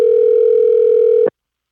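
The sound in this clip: A steady, loud telephone dial tone sounds while a call is being placed. It holds an even mid pitch for just over a second, then cuts off abruptly into silence.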